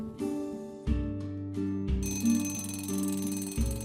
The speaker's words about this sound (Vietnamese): Tiếng chuông tan tầm lúc chiều vang lên.